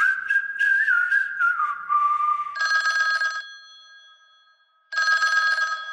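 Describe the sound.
Telephone ringing: two bright, buzzy electronic ring bursts follow a lively whistled melody, with a quiet pause between the rings.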